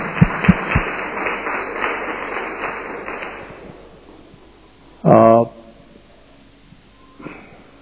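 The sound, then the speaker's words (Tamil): An audience claps to welcome a guest at a church service. Rhythmic hand clapping starts loud with a few sharp claps, then fades out over several seconds before a brief voice. “So உங்களை நாங்கள் அன்போடு வரவேற்கிறோம். கரங்களை தட்டிட்டு ஆரம்பிச்சு அவளை வரவேற்கிறோம்.”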